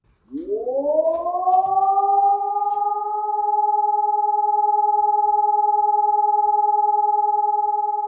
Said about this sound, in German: Und das ist quasi der Ton, wenn es wieder Entwarnung gibt.